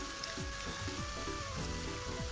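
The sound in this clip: Heavy downpour rain comes through an open window as a dense, even hiss that fills the whole clip, faint and constant, with soft low tones underneath.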